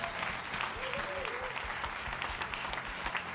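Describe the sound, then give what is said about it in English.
A church audience applauds, with many hands clapping in a steady, fairly soft patter that continues evenly for the whole stretch. “So let's give them a big hand.”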